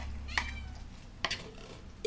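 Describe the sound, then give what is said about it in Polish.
Cats meowing after sterilization while recovering at a shelter: three brief, fairly faint calls spaced well apart, over a low background rumble. “Tutaj mamy koty po sterylizacji”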